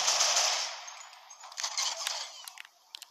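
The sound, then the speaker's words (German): Gunfire in a video game shoots apart buildings. A faint hissing burst fades out, followed by a few sharp cracking shots and clattering impacts. “Ich schieße das hier gerade alles kaputt, was er gebaut hat.”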